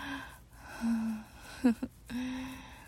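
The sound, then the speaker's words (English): Soft, low groans in an intimate setting: a few drawn-out voiced moans, quiet and steady in pitch, broken near the middle by a couple of sharp breathy catches. “I can hear you groaning.”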